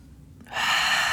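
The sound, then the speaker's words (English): A deep breath drawn in after a short quiet moment: a single long, airy inhale that rises quickly and holds steady to the end, fairly soft and with no talking. “take a deep breath”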